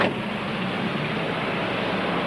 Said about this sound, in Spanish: El automóvil se pone en marcha y se aleja hasta llegar a una calle tranquila y discreta